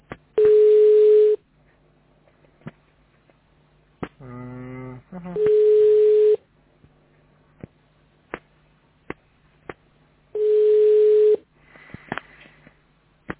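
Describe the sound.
Telephone ringback tone for a call that goes unanswered: three steady mid-pitched beeps, each about one second long and spaced about five seconds apart. Faint clicks and a short buzzy burst come between them.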